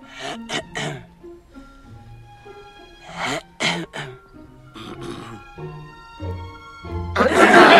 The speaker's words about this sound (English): Pincus's bed, where a large group of people have now gathered and are trying to rouse the dentist with some increasingly urgent throat clearing.